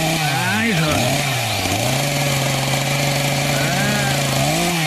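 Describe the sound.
Chainsaw cutting through a pine tree, a loud continuous buzzing engine drone whose pitch dips and recovers as the chain bites into the trunk.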